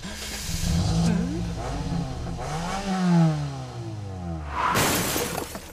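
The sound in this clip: A car engine revs as the car drives off, its pitch rising and falling in a few surging sweeps. The engine stays loud throughout, and a sharp burst of noise comes near the end.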